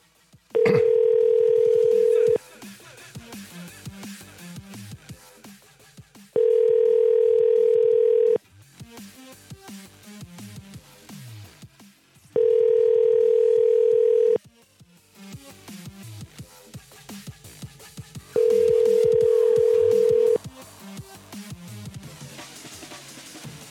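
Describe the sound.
Telephone tones sound while placing a call, four long, steady beeps of about two seconds each, evenly spaced and loud, with talk heard between them.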